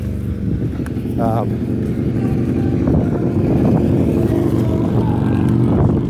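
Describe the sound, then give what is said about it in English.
A motorcycle drives by, its steady engine roar rumbling throughout and swelling slightly toward the end. “That was a motorcycle drive by.”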